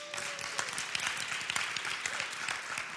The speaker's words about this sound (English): Give yourself a hand clap for that.